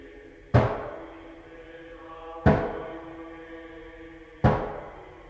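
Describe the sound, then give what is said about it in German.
Three heavy knocks on a door in a stage drama, each a single loud thud with a lingering decay, spaced evenly about two seconds apart with quiet hum between. “Wer klopft?”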